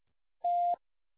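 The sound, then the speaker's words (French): A single short, steady electronic beep from an Orange mobile voicemail service, sounding once alone at an even pitch before recording begins. “Veuillez laisser votre message après le bip.”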